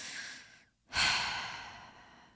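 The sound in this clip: Deep breathing as part of a calming check-in: a soft airy breath, a brief silence, then a louder, sigh-like breath that fades away slowly.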